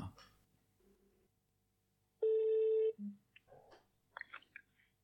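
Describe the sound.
A telephone call being dialed, heard as one loud, steady electronic tone lasting under a second, with soft clicks and faint voices before and after it.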